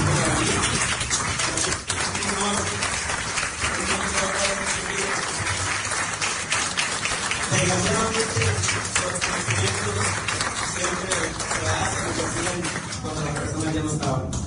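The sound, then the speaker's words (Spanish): Applause at a municipal ceremony in Sabinas, Coahuila, honouring people who worked for the town. The dense, steady clapping continues throughout, with voices talking underneath. “creo que vamos a dar un aplauso a estas personas que trabajaron en el”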